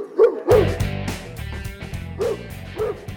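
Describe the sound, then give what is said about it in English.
Dogs barking and yipping: a few sharp, high-pitched barks come in short bursts with gaps between them, over a steady lower background sound. “And that's the sound of the dogs.”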